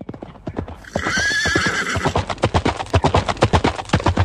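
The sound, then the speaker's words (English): Horse neighing: a shrill, wavering whinny of about a second rises over steady clip-clop hoofbeats, and the quick, even hooves carry on alone after the call ends. “Sorry, that was just a recording of a horsey.”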